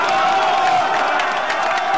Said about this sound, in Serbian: Skandiranje ove vrste opet dobro dođe.